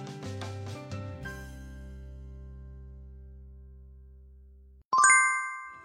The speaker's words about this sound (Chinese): 正在等红灯的谢景亭收到了来自男神住在我隔壁的微信消息